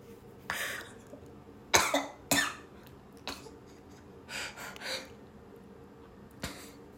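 A person coughing, set off by a smell while on the toilet. Several sharp, separate coughs and short clusters come in an irregular rhythm, with quiet breaths between them.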